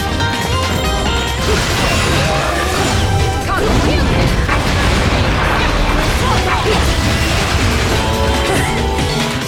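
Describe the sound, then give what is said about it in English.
Video game combat with an angel spear used to cut apart angels: a dense, continuous barrage of crashing, slashing and booming effects, loud throughout with no pauses. “we picked up an angel spear, and then we're using it to cut apart other angels.”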